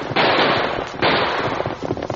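Gunshots fired at riders fleeing on horseback: two loud, sharp blasts, each trailing off into long noisy rumbles, followed by a rattle of smaller, quicker pops.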